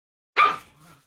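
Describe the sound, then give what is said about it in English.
A dog gives one sharp, loud bark followed by a fainter, lower trailing sound, heard alone and over quickly. “Now I know why they left this goddamn dog in a basement for 2 weeks.”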